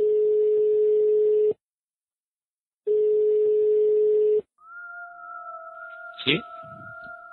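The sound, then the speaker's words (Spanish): Telephone call-transfer tones: two long, steady, low-pitched beeps separated by a pause, then a higher sustained dual tone with a brief warbling sweep. “Por favor, espera mientras se transfiere la llamada.”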